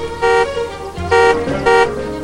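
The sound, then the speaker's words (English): A station wagon's car horn honks three times, each a short, steady, bright blast with brief gaps between them. “In the station wagon, Poppy honks.”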